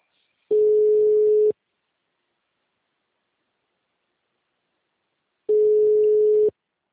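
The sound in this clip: A telephone line tone plays on an unanswered call, with two steady one-second beeps of the same mid pitch separated by about four seconds of silence.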